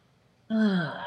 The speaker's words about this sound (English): I want us to take a breath, what I call a collective act of solidarity, a big breath in.